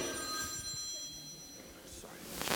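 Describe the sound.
A telephone rings faintly during a sermon, its steady high ringing tones sitting over low background noise.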